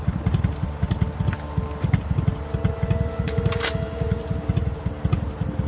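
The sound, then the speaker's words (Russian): A motorcycle idles in a yard with a steady, rapid low thumping that runs evenly throughout at a moderate level. “С той стороны двора подъехал мотоцикл.”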